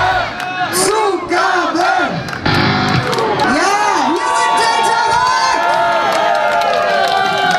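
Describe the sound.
At the end of a gig by the house band Delta Rock, the crowd cheers wildly. Loud whoops, bellowed shouts and screams overlap, surging again after a brief dip early on.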